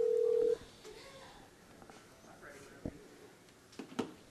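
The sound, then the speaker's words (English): A steady telephone tone sounds for about half a second as a number is dialed before a call to a high school wrestling coach. After it, a quiet murmur with a few faint clicks follows. “Don't dial a wrong number like I did the one night.”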